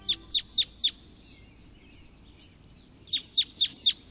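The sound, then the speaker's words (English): Red crossbill calls: two bursts of four sharp, high, evenly spaced chirps, the first group at the start and the second about three seconds later, with a quiet low background in between. “That's the sound of a red crossbill.”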